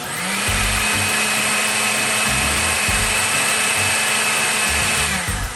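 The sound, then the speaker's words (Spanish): A food processor whirs as it purées cooked potato, thyme and hot vegetable broth into a smooth cream, its motor giving a steady, loud whine at constant pitch for nearly the whole clip. “retiramos del fuego y procesamos todo hasta obtener una crema suave”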